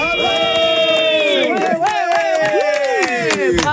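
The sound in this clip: A man yells as loud as he can in one long, strained, full-voiced shout that holds its pitch with small wavers. Crowd noise and other voices rise alongside it.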